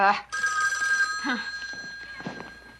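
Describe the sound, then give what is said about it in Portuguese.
A telephone rings in a Portuguese-dubbed film scene, a steady, high electronic ringing tone that runs almost the whole time, with voices talking beneath it. “Ouço o telefone tocando em sua vida.”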